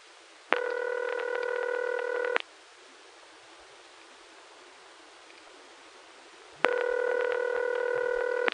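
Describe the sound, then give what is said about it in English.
A telephone number being dialed on a coin phone for an extended local call. Two long, steady tone bursts rise above a constant hiss, separated by a pause of about four seconds. “just dialed a number that's a 30-cent call from here.”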